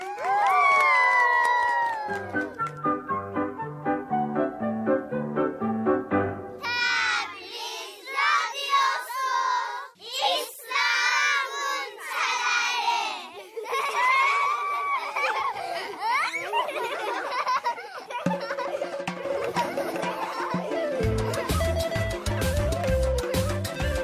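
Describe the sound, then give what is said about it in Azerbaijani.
Children cheer and shout as a group, their high, excited voices mixed with bursts of laughter, rising and falling in loud waves. “İndi alqışlayın.”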